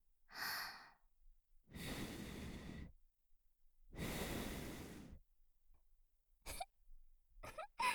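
Soft breath blowing from a person's mouth: two long, gentle, airy exhales of over a second each, very faint, followed by a few short breathy puffs.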